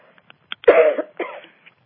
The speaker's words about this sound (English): I am still getting rid of the phlegm that I gathered when I had to go into dense places earlier in the week.